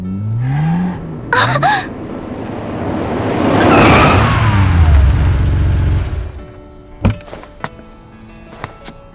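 A car arrives, its engine noise and tire roar swelling to a peak, then dying away to near quiet, followed by a few sharp clunks.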